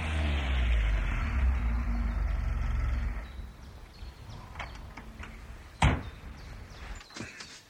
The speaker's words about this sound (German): während sie noch da standen, kam wieder ein Motorgeräusch näher. Es war der zweite Mann mit einem Abschlepper.